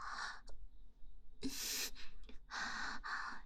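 Quickened, rapid breathing comes in several loud, breathy gasps and huffs separated by short pauses.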